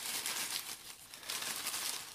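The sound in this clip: Paper slips crinkle and rustle while names are drawn for a Patreon giveaway, a continuous soft crumpling that swells and eases in waves, with no talking.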